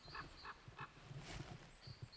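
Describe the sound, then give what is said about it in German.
Common raven calling overhead in a forest: a few faint, harsh, nasal croaks in short, separate bursts, alone, with no talk over them. “Ah, und über mir ruft gerade der Kolkrabe. Ach, das ist auch schön.”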